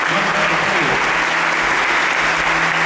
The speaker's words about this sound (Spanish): Si le va un aplauso fuerte